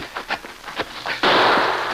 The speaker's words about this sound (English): Shot. Right close.